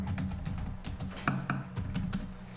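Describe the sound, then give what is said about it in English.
Someone types an answer on a computer keyboard, producing many quick keystrokes in an irregular rhythm with a few sharper, louder taps, with no talking. “I'm just typing my answer here.”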